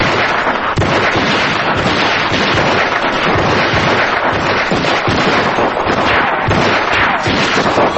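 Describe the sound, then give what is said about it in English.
Gunfire in a shootout, with one man firing two handguns at once while another shoots back, a loud, unbroken crackle of rapid shots throughout. “jumps out and starts firing with a gun in each hand”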